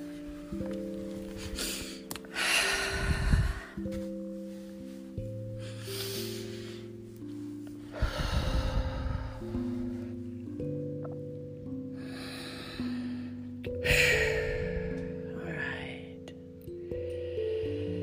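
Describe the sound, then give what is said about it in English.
Three slow, deep breaths, each a broad airy rush of air, rising over soft, sustained low musical tones that continue throughout. “And take two or three nice big breaths.”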